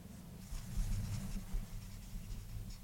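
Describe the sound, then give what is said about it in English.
Pen writing on paper during a game of would-you-rather questions. Faint, continuous scratching strokes with small bumps in loudness run throughout, with no talk over them. “You're writing so much. Okay, ready? You're still writing.”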